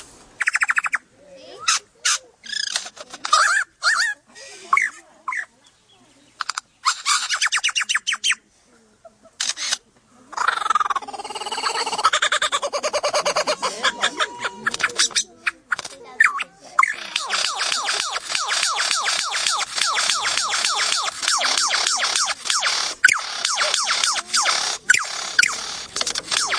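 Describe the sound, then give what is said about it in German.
A male bird's courtship display at its nest mound: a long, varied stream of loud chirps, squawks and rapid mechanical-sounding clicks, in bursts with short gaps at first and then a dense, continuous rattling sequence. “So, wenn sie ein Nest bauen, dann ist das so ein kleiner Hügel, auf dem dann eben das Männchen balzt. Und da kann es schon mal stundenlang so klingen hier.”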